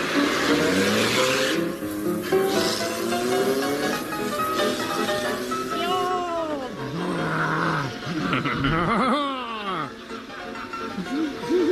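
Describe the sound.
A comedy sound effect of a vehicle speeding away at breakneck speed, with a roaring engine and repeated squealing, swooping tones, loud throughout, with voices over it.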